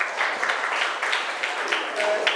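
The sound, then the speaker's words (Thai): Children clapping for a classmate during a lesson, a dense, steady patter of many quick overlapping claps that continues without a break from start to end. “เก่งมากปรบมือให้เพื่อนค่ะ”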